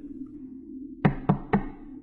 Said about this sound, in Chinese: 023突然听到敲门声，强行下线已经来不及了。